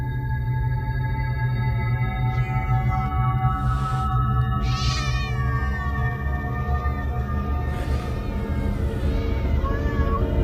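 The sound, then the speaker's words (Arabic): A single black cat inside a car meows a few times, with drawn-out, wavering cries that rise and fall over a steady droning hum. “دخلت ازاي القطط دي؟ معرفش. وقفت تاني بحاول اركز، لقيتها هي قطة واحدة لونها اسود.”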